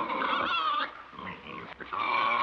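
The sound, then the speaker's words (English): Several pigs grunt and snort in a steady, low, rough stream of overlapping calls. “Hey, what are you pigs doing in here?”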